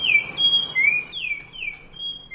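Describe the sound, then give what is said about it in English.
Spot-breasted oriole song: a series of clear, loud whistled notes, several slurred downward and others level, in short phrases separated by brief gaps. “Orioles of Baltimore, but we couldn't resist sampling it in presenting today's featured feathered friend, Icterus pectoralis, the spot-breasted oriole.”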